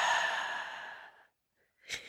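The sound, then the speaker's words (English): A deep exhale during a breathing exercise, a long airy breath that is loud at first and tapers into silence over about a second. A brief, softer breath follows near the end. “Take a deep breath in. Exhale.”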